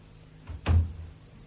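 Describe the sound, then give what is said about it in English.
A door being shut gives one short, dull, low thud, fairly soft, set against a faint steady hiss with silence on either side. “Before you go, shut the door.”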